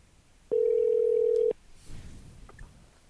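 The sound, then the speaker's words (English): A telephone line rings as a call is patched through, sounding as one steady mid-pitched tone of about a second. Faint clicks and low background noise follow it. “Maybe you can hear the ringing.”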